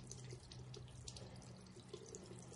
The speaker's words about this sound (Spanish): Ya en su casa, Jake se lava las manos en el baño.